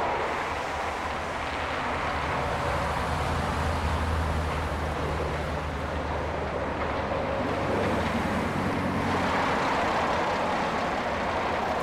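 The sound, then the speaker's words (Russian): Highway traffic makes a continuous, broad whooshing roar with gentle swells as vehicles pass. No voices are heard. “Направляется к трассе, где пытается остановить машину.”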